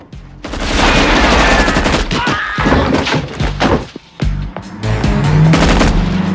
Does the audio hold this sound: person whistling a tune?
no

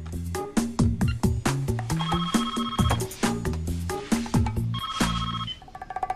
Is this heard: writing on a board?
no

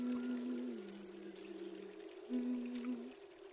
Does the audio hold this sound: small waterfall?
yes

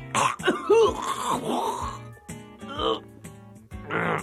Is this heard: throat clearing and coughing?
yes

